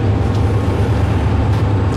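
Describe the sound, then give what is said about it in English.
Steady low rumble and road noise inside a moving press bus travelling near Evian during a G7 summit, a dense, even drone that holds constant throughout with no talking. “I'm still on the bus here.”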